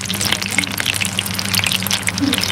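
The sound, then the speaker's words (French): Food sizzles in a pan, a steady hissing crackle with many tiny pops running evenly throughout. “Donc, je vous laisse en compagnie de cette petite cuisson qui est en cours”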